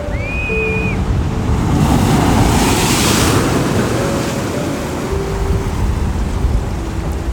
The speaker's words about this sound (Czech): Plují k tobě vlny, které tvoří pěnu.